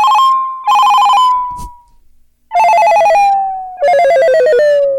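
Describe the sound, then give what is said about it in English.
Telephone ringing after a number is dialed: repeated electronic ring-tone bursts, a few in a row, then a pause and more rings, loud and clear with no talk over them. “let's go ahead and dial up that number real quick”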